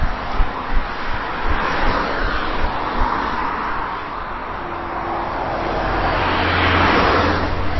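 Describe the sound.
Road traffic heard while crossing a road, a broad steady rush of passing vehicles with wind buffeting, swelling louder toward the end, with no one talking.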